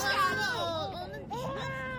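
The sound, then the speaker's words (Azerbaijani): A baby cries in wavering, wailing bursts whose pitch swoops up and down, fairly soft and continuous across the two seconds. “Ağlama canım, ağlama. Sən nə tez uyandın.”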